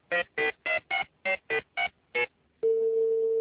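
Phone keypad tones sound as eight short, evenly spaced beeps while a call is dialed and connected. A steady, unbroken line tone follows and holds to the end.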